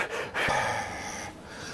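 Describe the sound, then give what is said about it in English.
A voice imitates the nervous, heavy breathing of an excitable man: a few loud, breathy gasping huffs of air with no words. “If you listen very closely, you can actually hear him hardest breathing in some of the shows.”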